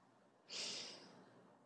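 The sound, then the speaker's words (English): A single deep inhale of breath during a guided relaxation exercise: a quiet, airy rush that starts abruptly, peaks quickly, then tapers off gradually, heard alone. “And inhale deeply.”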